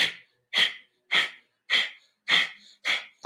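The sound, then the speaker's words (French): Forced exhalations from a breathing exercise, each pushed out while drawing the navel in, at the breather's own pace. Sharp, breathy nasal puffs repeat in a steady series about every half second, with short silences between and no talk. “on va enchaîner les expirations en avalant le nombril à son propre rythme. Ça donne ça.”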